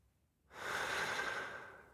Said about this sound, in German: Ich atme tief ein und habe das Gefühl, die Bedeutung der Stadt mit jedem Atemzug in mir aufzunehmen.